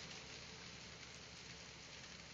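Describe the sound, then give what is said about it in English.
Heavy rain comes down hard on a cold 38-degree night with no lightning, a dense, unbroken hiss of drops that stays even and fairly faint throughout. “No lightning tonight, but we got the hardcore rain.”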